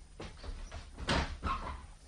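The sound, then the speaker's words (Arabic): An apartment door is opened, giving a few faint, muffled clunks and rattles in quick succession with no voices. “هقوم افتح الباب”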